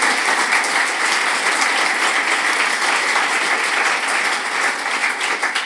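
Audience applause welcomes a guest author at a literary evening: loud, dense clapping that holds steady throughout and eases slightly toward the end, with no voices over it.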